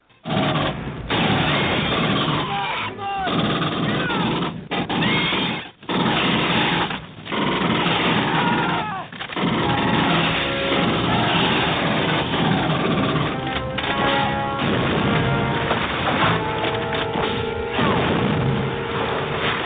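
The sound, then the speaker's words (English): Rapid, chattering automatic fire from the M41A pulse rifle, a film weapon sound effect. Loud, dense bursts run almost continuously, broken by a few brief gaps, and the sound is dull and muffled. “The next one I have got a clip for, this is the M41A pulse rifle from Aliens. Not a particularly brilliant clip, but we'll play it.”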